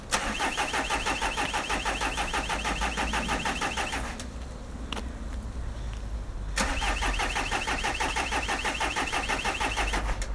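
A vehicle engine with an anti-theft lock being started: loud, rapid, rhythmic mechanical chugging drops briefly to a quieter hum with one sharp click, then resumes at full strength.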